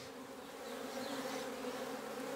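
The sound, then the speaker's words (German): Honeybees from a beekeeper's hives buzz around lavender, forming a soft, continuous, dense hum of many insects with no talk. “Seit 20 Jahren ist Katrin Czesny auch begeisterte Imkerin. Und auch ihre Bienen lieben den Nektar und pollenreichen Lavendel.”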